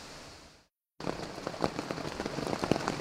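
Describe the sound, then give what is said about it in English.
Rain drums on a tent in the North Carolina Smokies, a dense, steady patter of many drops with scattered sharper hits. After a short silent break, the rain picks up at a fairly even level. “that sound is the rain that's hitting my tent.”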